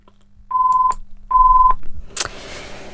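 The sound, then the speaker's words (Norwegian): A telephone rings during a bingo number call with two steady, high-pitched electronic tones of about half a second each, separated by a short pause. “Og med siste oppropte tall 13 så ringte telefonen.”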